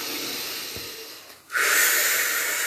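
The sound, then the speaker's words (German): One deep breath during a guided relaxation exercise: a long, soft, airy inhale, a brief pause, then a louder rushing exhale that stays steady to the end, with no talking. “atme noch einmal tief ein und aus”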